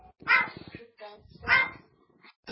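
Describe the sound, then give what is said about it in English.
A dog barks twice, sharp and loud, with softer yelps and whines between and after. The barks stand out against an otherwise quiet background. “That's Chris's dog.”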